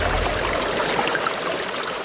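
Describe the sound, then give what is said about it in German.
Rushing water from the pumping station of a new village water supply starting up: a dense, steady, hissing flow that continues without breaks, with no voices. “soeben setze ich das Pumpwerk für die neue Wasserversorgung unseres Dorfes in Betrieb.”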